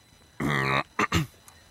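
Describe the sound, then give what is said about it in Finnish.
Seagull calls: one long, harmonic cry followed by two short, sharper calls, heard alone and fairly clearly against a quiet background. “No nyt te kuulette nämä lokit.”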